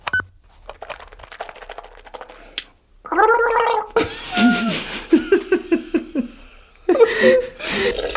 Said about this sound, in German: ich war ja gerade beim Zähneputzen, nicht?